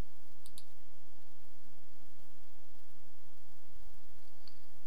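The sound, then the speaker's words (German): Computer mouse clicking on a PC: a quick pair of faint, sharp clicks near the start and one more near the end, over a steady low hiss, with no talking. “und man klickt auf System”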